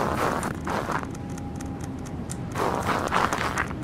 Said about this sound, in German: Der Schnee klingt irgendwie auch seltsam.